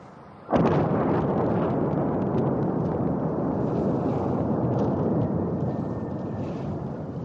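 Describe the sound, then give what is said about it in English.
An explosion from a night bombing raid on Baghdad: one sudden loud blast opens into a long, heavy, sustained rumbling roar that stays strong and slowly fades only slightly toward the end. “the Iraqi capital, Baghdad, has been enduring another night of bombing.”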